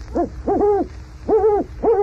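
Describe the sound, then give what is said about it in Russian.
An eagle owl hoots a few times in a clear, repeated pattern of deep, rounded hoots. The hoots come in short bursts separated by brief pauses, with no other sound. “Филин, это ты ухаешь?”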